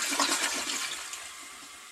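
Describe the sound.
A toilet flushes, with water rushing down the drain as a steady, loud hiss that holds strong for about two seconds and eases only slightly toward the end, with no voices.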